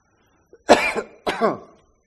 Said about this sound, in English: Excuse me. That's not a COVID cough.